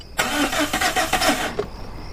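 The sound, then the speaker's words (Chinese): A worn-out car's engine cranks on the ignition key, giving a steady, rhythmic churning of the starter for over a second. It then cuts off without catching, leaving a faint high whine. “再打， 别停，这钥匙都快拧断了都。 你从哪买的破车？”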